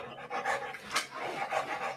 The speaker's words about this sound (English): listen to that dog